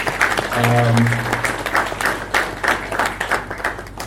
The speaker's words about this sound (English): Let's welcome him. Let's give him a big hand.